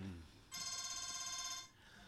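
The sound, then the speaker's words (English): A phone ringtone sounds as a steady, bright electronic ring with a fast pulsing flutter. It runs for just over a second, with quiet stretches before and after. “it's a sensible ringtone, at least. You've got to give him kudos for their ringtone.”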